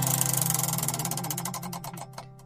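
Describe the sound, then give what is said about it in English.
A prize wheel spun during a music quiz game: its pointer ticks rapidly against the pegs, then the clicks slow and spread out until the wheel stops. The ticking is faint over a steady low hum. “now to engage the Pop Oracle, you get to spin the Wheel of Eight”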